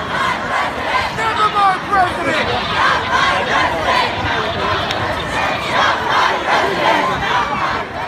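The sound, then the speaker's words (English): A protest crowd responding to an election result chants "Not my president" in unison. The massed shouting is loud and steady, with rhythmic repeated phrases over a dense babble of voices. “Did you hear that? Not my president, not my president.”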